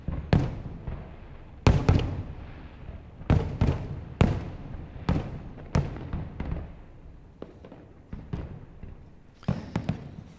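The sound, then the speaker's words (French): Fireworks from a festival on an island in the Saint Lawrence River, heard from the opposite shore, pop and boom in many irregular, faint bursts, some sharp cracks and some duller thuds with rumbling tails between them. “Le festival de feux d'artifice de Montréal a lieu sur une île en face du centre-ville de Montréal et qui est sur l'autre rive du fleuve Saint-Laurent. Et c'est ce qu'on entend depuis cette rive.”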